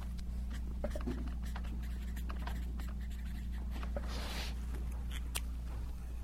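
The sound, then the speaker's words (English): Handwriting scratches steadily as words are written up by hand, a dry, continuous scrape of many small strokes over a constant low electrical hum. “Let me write that up.”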